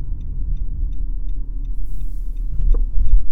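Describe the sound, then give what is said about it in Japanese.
A car approaches on a snowy mountain road, heard as a steady low engine and tyre rumble that grows slightly louder toward the end, with no voices. “ああ、来てるね、車ね。”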